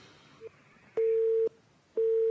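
A busy tone sounds on a phone line after a caller's call-in drops. A faint short blip is followed by two loud, steady, mid-pitched beeps, each about half a second long with a pause between them.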